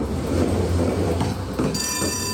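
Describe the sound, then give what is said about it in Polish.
A tram travels its route between Chorzów's market square and the Świętochłowice-Skałka stop, giving a steady rolling rumble of wheels on rails, with a thin high whine joining near the end of the short stretch. “połączyła je Gryfnobana, Kasia, czyli tramwaj, który przemierzył trasę z chorzowskiego rynku do przystanku Świętochłowice-Skałka.”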